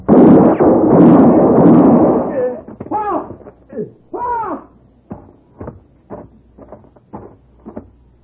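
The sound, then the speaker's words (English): A sharp gunshot blast in a radio drama bursts out loud and rings on for about two seconds before a man's voice begins speaking in short phrases. “I had to shoot him.”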